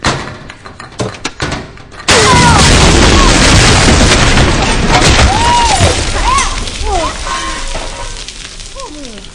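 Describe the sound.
A grenade pitched into a cabinet of grenades sets them off. After some scattered clattering and knocks, a sudden loud blast erupts into a sustained, roaring rumble, with shrill warbling tones threading through it.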